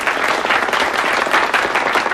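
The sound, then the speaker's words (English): An audience at a Soviet friendship society gathering claps loudly for a pianist who rises from the piano. Many hands make a thick, even burst of applause that holds steady throughout, with no voices standing out. “A man with thinning hair leads applause for David as he stands up from a piano.”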